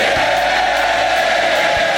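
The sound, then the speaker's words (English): Crowd cheering at Westminster as Andy Burnham is sworn in as member for Makerfield: a loud, unbroken roar of many voices that stays level throughout, with no single call standing out. “Cheers for Andy Burnham as he's sworn in and completes his dramatic return to Westminster.”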